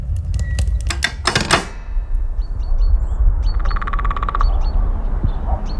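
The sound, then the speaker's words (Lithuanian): A woodpecker taps out a rapid burst of sharp knocks, then a second faster rattling run follows, with high bird calls in between. “Mata, genys. Jo, čia mūsų draugelis.”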